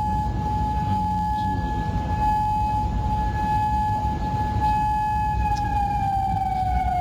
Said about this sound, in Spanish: A esta hora se escuchan sirenas antiaéreas de alerta de ataques en Bahrein y en Kuwait.